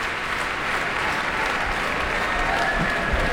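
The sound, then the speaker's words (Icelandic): Dense, sustained concert applause fills the packed Eldborg hall at Harpa, a steady even roar of many hands clapping with no voices on top. “Og það fagnað áfram í smekkfullri Eldborg Hörpu.”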